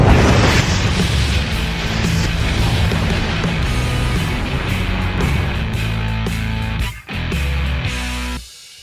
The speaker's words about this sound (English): Three, two, one. Blast Off.